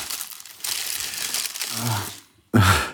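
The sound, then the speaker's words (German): Crinkly, crunching rustles from someone eating a nut-corner pastry, a nut-topped baked bar. The noise runs steadily, stops briefly, then returns as a louder burst at the end. “oh, ich esse nur eine Nussecke.”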